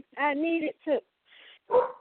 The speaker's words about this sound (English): Either one, I'm sure that you hear the beautiful dogs out here